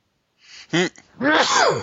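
A single sharp sneeze, preceded by a quick intake of breath and followed by a longer voiced sound that trails off.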